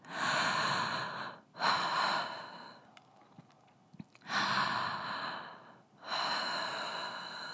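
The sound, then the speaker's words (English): Quickened breathing in a guided breathing exercise: loud, heavy breaths drawn in and pushed out in an even rhythm, with a softer stretch midway before the strong breaths resume. “let's begin to quicken your breath. I'll breathe with you.”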